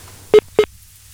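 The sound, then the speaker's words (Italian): A phone call drops with a disconnect tone: two short, identical mid-pitched beeps sound in quick succession over a faint low hum, with no voices. “È caduta la linea. Non so che è successo.”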